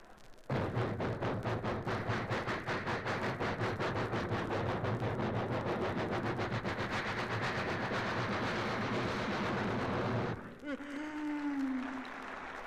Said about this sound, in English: Well, it's a long train.